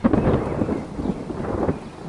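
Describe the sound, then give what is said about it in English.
A thunderstorm with thunder and rain: a loud, continuous low rumble blended with a rushing hiss of rainfall, heard alone for about two seconds. “Pretty good effects, Mr. Spielbergermeister. Thank you. Actually, I think it's just a storm.”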